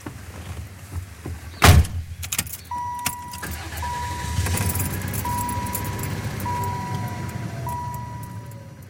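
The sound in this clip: Car on a drive to a cheese dairy: a sharp door thump, then a chime repeats at intervals over a low, steady engine rumble and road noise.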